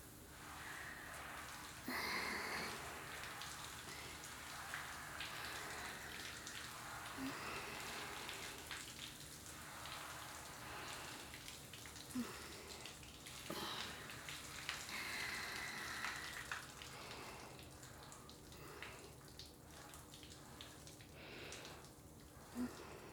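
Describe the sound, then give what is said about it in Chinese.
Warm shower water rinsing a person: a steady, even patter of spray falling on skin and the floor, with faint irregular splashes as the body moves under the stream. “差不多热了。 来，站过来一点，帮你冲水咯。”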